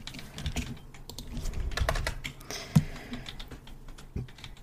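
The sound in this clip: Typing on a computer keyboard: many quick, irregular keystrokes patter away at a fairly soft level, with a slightly louder key strike partway through.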